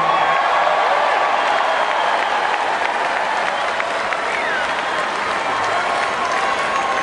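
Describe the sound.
An audience welcomes a speaker at an evening event with loud, dense applause that holds steady from start to finish without a break.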